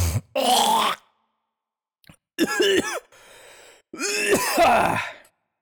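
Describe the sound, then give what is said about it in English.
Snorting and hawking to clear a nose hair from the throat: a few harsh, gritty bursts of throat clearing and grunting with short pauses between them, and a quieter raspy breath in the middle. “you essentially have to suck it through your nasal cavity, out through your mouth, and then spit out the nose hair.”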